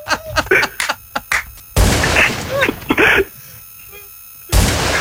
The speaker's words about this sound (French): Mais il tire, le salaud. Il tire.